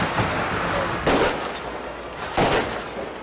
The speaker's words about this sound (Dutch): De boeren stichtten brandjes, gooiden met mest en staken vuurwerk af.